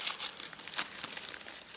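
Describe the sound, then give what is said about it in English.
Crinkling and tearing of wrapping paper as a jewelry box is unwrapped, a few sharp rustling bursts early, then softer steady crinkles throughout, with no voices. “A jewelry box being unwrapped.”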